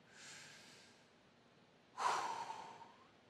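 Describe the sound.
Deep breathing during a guided moment of stillness and prayer: a soft, drawn-out breath fades away, then a louder, rushing breath follows and slowly trails off, with no talk over it.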